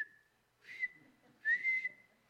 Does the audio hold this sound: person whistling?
yes